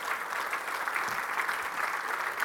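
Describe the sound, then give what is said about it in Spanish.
A church audience applauds for the Lord: soft, continuous clapping forms an even, steady wash of sound with no individual claps standing out. “¿Le pueden dar un aplauso al Señor,”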